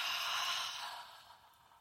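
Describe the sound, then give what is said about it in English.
A slow deep breath let out as a long exhale during a guided relaxation exercise: a soft, airy hiss that starts full and fades steadily away, with no talking over it. “Take another deep breath in. Letting go of your stomach.”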